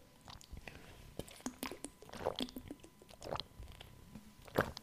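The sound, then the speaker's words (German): A person drinks and swallows, making quiet wet mouth sounds. Soft clicks and gulps come in an uneven run, with no speech. “trinken. Ich merke es auch an meiner Stimme.”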